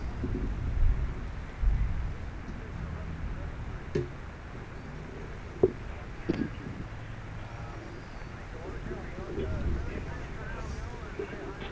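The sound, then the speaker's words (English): Faint low rumbles of thunder as heavy rain approaches, swelling a few times over a steady background hiss, with scattered sharp clicks in between. “Yes, here comes the big rain stuff. Here it comes. There's some thunder in the background.”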